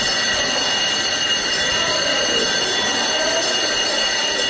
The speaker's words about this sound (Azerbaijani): Zəng çalınır